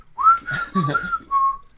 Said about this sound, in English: I wanted to hear some whistles at the end of that.